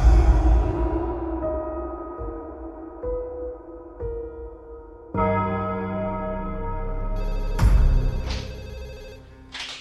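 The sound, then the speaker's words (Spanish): A telephone bell rings with an anonymous call to Guatemala's public prosecutor's office, giving a few bright, sustained ringing tones that fade away between bursts. “Una llamada telefónica llega de manera anónima al Ministerio Público de Guatemala.”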